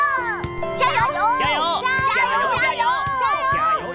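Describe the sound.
Children playing and shouting: many high, excited voices overlap in constant calls and chatter that swoop up and down in pitch, with a few sharp knocks among them.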